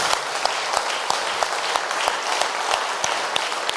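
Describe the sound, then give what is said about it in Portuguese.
A church audience applauds for Jesus with loud, dense clapping. Sharper claps stand out on a fairly regular beat throughout the nearly four seconds. “Palmas para Jesus.”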